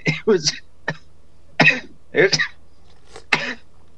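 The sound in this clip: A man coughing in a series of short, sharp bursts, some rough and throat-clearing in character, with brief pauses between them and no talk.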